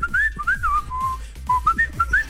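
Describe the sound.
A person whistles alone: a quick, lively run of clear, high notes that slide up and down, with a short pause in the middle before the tune resumes.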